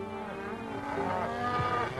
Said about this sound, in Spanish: Detrás iba otro grupo con 50 cabezas de ganado.